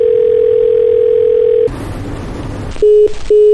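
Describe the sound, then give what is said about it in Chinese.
A telephone busy tone after redialing: a steady tone is cut off by a burst of line noise, then the busy signal's short, evenly spaced beeps begin, two heard before the end. “忙音。 还是没人接。”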